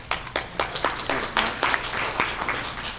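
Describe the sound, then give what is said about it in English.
Audience applause honoring a local CSEA union president who recently received an award: many sharp, overlapping hand claps in a loud, steady patter that continues throughout. “So give a hand to Mark.”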